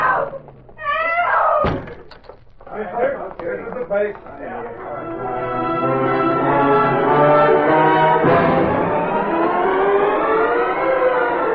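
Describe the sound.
A police siren wails at a crime scene, starting after a few sharp knocks and brief voices, then climbing steadily in pitch and holding a loud, sustained rising tone to the end.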